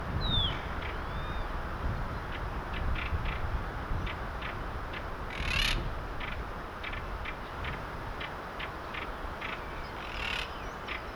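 A bird calls beside its nest in a series of short, faint, evenly spaced chirps over a low steady background rumble, with no voices.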